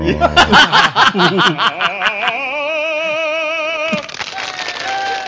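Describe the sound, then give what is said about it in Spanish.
Audience laughter and applause for a cartoon character's song. Loud, rhythmic chuckles and laughing come in bursts at first, then give way to a steady wash of clapping with a bright sustained tone above it, and a brief shift near the end. “Y le aplauden a Bugs Bunny, no al cantante. Y para los aplausos.”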